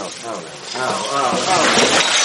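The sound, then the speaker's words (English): A Christmas tree topples and its ornaments break, giving a clattering, shattering crash of glass that builds and grows louder toward the end, with voices heard through it. “Two goons broke into our house and knocked over our Christmas tree.”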